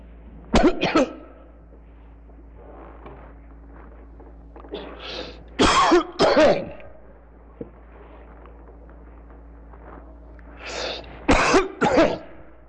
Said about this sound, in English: an insistent cough. Not an uninterrupted cough, but a constantly reoccurring cough.